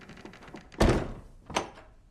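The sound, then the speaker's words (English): A door being closed: one heavy, dull thunk followed shortly by a second, softer knock as it settles, with nothing else around it. “As he closes the door”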